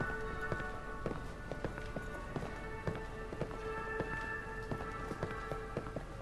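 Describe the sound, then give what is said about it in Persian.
Many quick, irregular footsteps of people hurrying down a staircase, fairly faint, tapping over a steady tonal background. “شرکت کننده ها از راه پله پاسیلی میرن پایین.”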